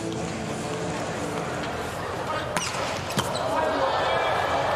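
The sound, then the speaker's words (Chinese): Volleyball serves and hits in a match with Slovenia's team, two crisp, sharp ball smacks standing out above a steady wash of arena crowd noise. “博尔瑙特的发球，”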